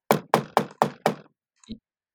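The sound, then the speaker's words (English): Knocking on a door: five sharp, evenly spaced raps, loud and alone, followed by a single fainter, softer tap after a short pause. “I knock on the guy's door.”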